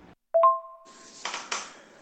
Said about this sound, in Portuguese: E também com, com, com o plim do WhatsApp também, né? Vai ter que acostumar com isso também.